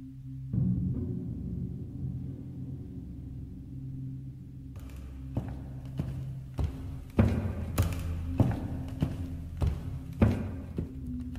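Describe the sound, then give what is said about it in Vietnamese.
Footsteps cross a living room outside a bedroom at night as a series of soft, dull thuds at a steady walking pace. They begin partway through over a low, sustained background tone and grow slightly firmer toward the end. “Hiền như mơ màng, cảm giác như có tiếng bước chân ở bên ngoài phòng khách”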